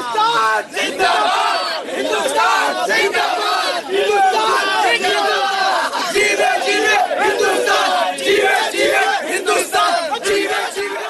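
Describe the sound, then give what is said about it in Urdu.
Indian spectators in a cricket stadium celebrate a win over Pakistan, humming a well-known TV advertisement jingle and chanting slogans together in a dense, loud, continuous roar of massed voices. “روایتی حریف پاکستان سے match جیتنے کے بعد بھارت کے تماشائیوں کے گولوں کے گول، ماضی میں زبان زد عام ہونے والے ٹی وی اشتہار موقع موقع کو گنگناتے جا رہے تھے اور ساتھ ساتھ نعرے بلند کر رہے تھے۔”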